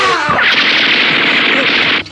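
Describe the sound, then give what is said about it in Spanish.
Gunshots ring out in a dramatized shootout among rocks: a voice briefly at the start, then a loud sustained blast of rapid, noisy fire that cuts off abruptly near the end. “El criminal, rabioso como fiera herida, apunta con su arma y dispara hacia el agresor.”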